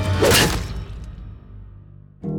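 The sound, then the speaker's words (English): A goblet is smacked across a man's face: a quick swishing whoosh lands in a hard smack, then rings off into a fading tail before a brief low sound at the end. “So he grabbed a goblet and smacked it across Patroclus' face.”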